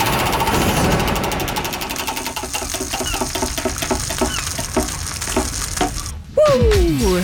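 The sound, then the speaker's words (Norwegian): A prize wheel for grilling tips spins on its stand, throwing off a rapid train of ticking clicks whose spacing gradually widens as the wheel slows down, over a constant busy background. “nå det på tide å dra I gang dette grilltips-lykkehjulet vårt”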